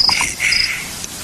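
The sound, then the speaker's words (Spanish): Chirping of a pet cricket in a film scene: a few short, thin, high chirps over a soft, steady hiss, with no voices. “Ahora podrá ser el grillo del emperador.”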